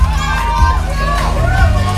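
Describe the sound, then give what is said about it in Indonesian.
Loud cheering from a crowd of fans for two performers, a dense roar of excited shouts and chatter with voices talking over it. “Wow, riuh banget ya ini fansnya Dava sama Bima ya.”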